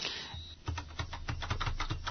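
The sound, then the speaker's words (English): Keys clacking as someone types on a keyboard set to grade 2 mode, a short, quick run of several crisp, evenly spaced keystrokes, fairly faint and with no talk. “And then we can type.”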